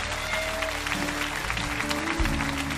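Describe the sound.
A church audience on its feet gives a standing ovation, with steady, sustained clapping and scattered cheers. Low instrumental tones sit underneath throughout.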